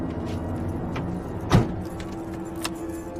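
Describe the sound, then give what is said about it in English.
Volkswagen car door shutting as someone gets in: one dull, solid thunk over a steady low engine-like rumble, with a faint click shortly after. “Noah marches out of the building and gets into his Volkswagen.”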